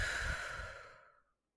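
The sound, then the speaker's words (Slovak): A single deep breath during guided meditation, a long, airy, sustained exhale that gently fades into silence. No one speaks. “Urobme ešte spolu pár nádychov a výdychov predtým, ako sa vrhneš na svoj deň. Nádych a výdych.”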